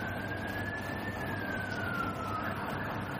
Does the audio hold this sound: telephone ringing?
no